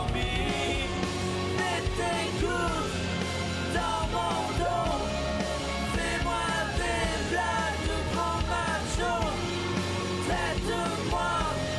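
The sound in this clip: A person shouts and yells loudly and almost without pause for about twelve seconds. The voice is harsh and strained, and its pitch moves up and down constantly.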